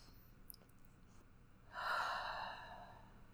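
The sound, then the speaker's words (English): One deep breath drawn in during a guided tapping exercise, a soft, airy inhale rising after a quiet stretch and lasting about a second and a half before easing off. “Deep breath.”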